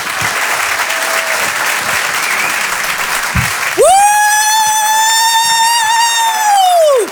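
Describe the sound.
Loud audience applause at the Rire et Chansons Comedy Club at the Apollo fills the first half as steady, dense clapping. A strong sustained high tone then cuts in and holds over the clapping until the end.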